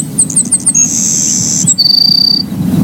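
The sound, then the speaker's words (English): A songbird sings from a low perch such as a fence post or wire, giving a few quick high chirps, then a long steady high whistle and a second slightly lower sustained whistle over a low rumbling background. “They love to sit on a fence wire or a fence post. And, you know, they'll sit there and sing away.”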